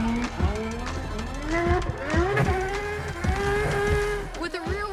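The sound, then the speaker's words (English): Tires squeal as a McLaren race car slides and drifts around a track, with many wavering, bending squeals following one another over steady engine noise. “this McLaren is a master at sliding with complete control”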